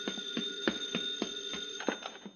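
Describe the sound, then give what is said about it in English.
A telephone bell rings with a rapid, rattling run of metallic strikes in a fast, even rhythm that continues throughout. The ringing is faint and heard alone, with no talking. “The phone, Bill, the phone, up on those stairs.”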